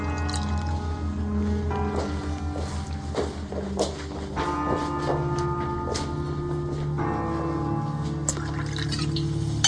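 Champagne is poured at a table, with a long run of liquid splashing, fizzing and dripping sounds and scattered small clicks throughout.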